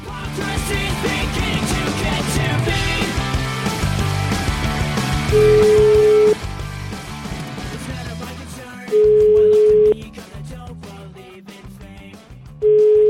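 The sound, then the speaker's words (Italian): Ringback tone of an outgoing telephone call, three steady beeps of about a second each at one mid pitch, spaced a few seconds apart, sounding over background music that fades down. “Comunque chiamiamo questo Cerrelli.”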